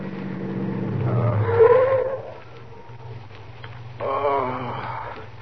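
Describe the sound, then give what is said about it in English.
A car pulls off the road to park by a closed gas station at night. Its low engine rumble swells briefly, then settles into a quieter, steady hum with some higher tonal whine. No talk is heard. “Pull up at the side of the road. Look, up ahead, a gas station closed for the night. We can park there.”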